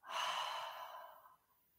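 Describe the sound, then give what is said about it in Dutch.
A single long, deep breath during a guided breathing exercise, heard as a loud airy hiss that gradually tapers off. No one talks over it. “Adem diep in door je neus. En uit door je mond.”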